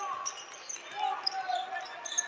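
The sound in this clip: A basketball is dribbled on the court during a Hastings College vs Dordt men's college game, with quick, light bounces running under play-by-play commentary.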